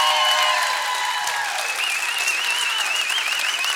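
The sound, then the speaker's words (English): Applause and cheering from a church audience celebrating a new campus announcement, a dense, sustained wash of clapping that stays loud and steady from start to finish. “Only half the room stood up and cheered, and the other half are like, I don't know about that video stuff.”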